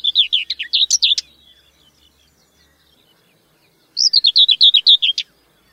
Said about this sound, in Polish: Ponadto, jeśli się dokładnie wsłuchamy, usłyszymy, że każdy dźwięk w skaczącej pieśni cierniówki wydawany jest tylko raz.